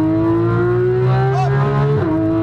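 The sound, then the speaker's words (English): A race car engine revving on a hot racetrack in Las Vegas: a loud, sustained mechanical drone with steady harmonic tones that rise slightly, then drop sharply near the end as the driver downshifts, continuous and dense throughout. “Downshift. Unwind. Lots of throttle. Go for it.”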